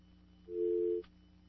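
A telephone line tone: one steady, mid-pitched beep lasting about half a second. It sounds alone over a faint, constant hum, with no voices.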